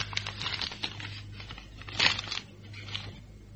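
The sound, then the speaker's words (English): A paper envelope is torn open, giving a few faint crinkling, crackling bursts, the loudest tear near the middle, over a low steady hum with no talk. “Take this envelope. It's for you. For me, sir? What is it? Well, suppose you open it and see.”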